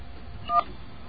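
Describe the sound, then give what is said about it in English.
A single short telephone keypad beep from dialing 411, a brief clean tone over a faint background hiss. “Well, I don't think we can even call 411. Let's give it a shot.”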